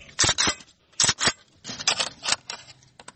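Metallic clicks, snaps and scrapes of a Kalashnikov rifle being cleaned and handled at home, in a series of sharp irregular bursts, some in quick pairs, with softer rubbing between them and no talk.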